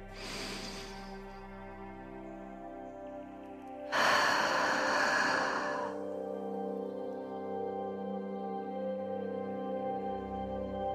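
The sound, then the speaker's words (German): A deep, long, slow breath taken during a guided relaxation, heard as a soft, airy rush of about two seconds over calm, sustained tonal music. “Nimm noch einmal einen tiefen, ganz langen und bewussten Atemzug.”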